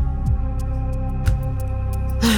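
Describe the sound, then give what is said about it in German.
An air conditioner hums steadily, a low droning tone with layered harmonics and a few faint ticks and thumps over it. “Das ist richtig, das ist die Klimaanlage.”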